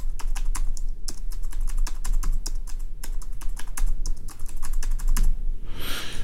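Rapid key clicks from typing on a Braille Sense braille notetaker keyboard, a dense, steady stream of crisp taps with no voices.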